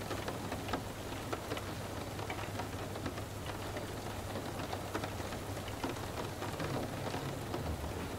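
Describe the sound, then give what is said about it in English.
Rain taps on a window in a dense, steady patter of countless small drops, soft and even throughout, with no voices. “by the sound of the rain at your window, you slip deeper into sleep as each raindrop taps from outside to heal your body.”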